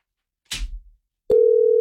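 A steady, unbroken telephone tone sounds as someone places a call. It follows a brief noisy burst, then holds one even, mid-pitched note at constant loudness until the end.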